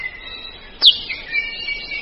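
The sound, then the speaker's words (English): An akiapolaau bird call: one sharp, high, down-slurred chirp stands out, with thin, faint whistled tones holding steady around it. “And then there's the Akia palau, with one of the most remarkable beaks of any bird.”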